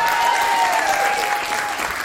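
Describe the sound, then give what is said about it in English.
Audience applause at a live quiz night in Manchester: a dense, unbroken wash of many hands clapping that stays loud and even for the whole stretch. “A round of applause for the quizmaster,”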